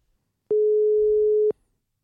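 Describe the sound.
Telephone ringback tone while placing a call: one steady, mid-pitched tone lasting about a second, heard alone with silence before and after.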